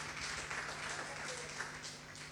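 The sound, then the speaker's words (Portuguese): Faint audience applause during a church sermon, a soft, continuous wash of many hands clapping over a low steady hum. “Dê um aplauso para Jesus.”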